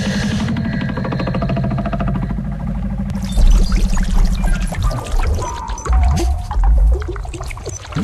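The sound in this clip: Water pours and gushes into a sinking boat. A steady low rush in the first seconds swells into louder, splashing surges.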